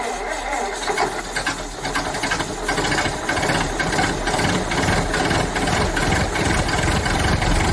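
A SEAT car engine runs with a steady, mid-pitched rattling hum. The sound holds at an even loudness for the whole stretch, with no clear revving.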